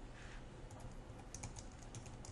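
Faint computer keyboard typing as HTML code is entered, with many quick, light key clicks in an uneven, steady rhythm throughout.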